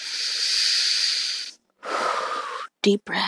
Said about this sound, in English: I'm going to breathe for a second, because, wow, heartburn.